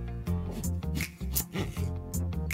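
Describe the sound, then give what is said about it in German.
Knife cutting food open on a small board, with a few sharp, irregular chops over a steady low hum. “ich habe hier ein Messer und ein Brettchen und ich schneide es jetzt auf.”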